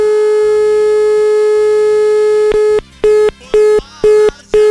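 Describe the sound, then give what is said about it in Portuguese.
Telephone line tone while trying to place a call: a loud, steady tone holds for nearly three seconds, then breaks into a run of short, evenly spaced beeps with silent gaps between them. “Vamos ver se a gente consegue agora. Ó, deu linha.”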